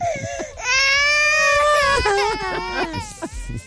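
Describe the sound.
A baby cries loudly in long, wailing bursts that break into whimpering sobs between breaths.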